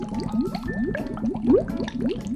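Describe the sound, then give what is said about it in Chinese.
Hotpot broth simmering as shrimp are added: a steady run of bubbling, gurgling blips, each rising slightly in pitch, repeats in a regular rhythm at moderate loudness with no talk. “我们先加虾子，这样子啊，汤头会更好喝哦。”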